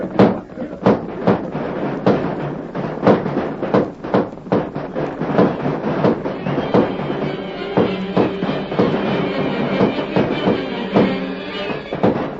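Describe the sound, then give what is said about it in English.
Gunfire rings out as outlaws charge a village on horseback with guns blazing: dense, rapid volleys of many sharp, loud shots over a steady rumbling uproar. “The outlaws thundered down upon the village, their guns blazing.”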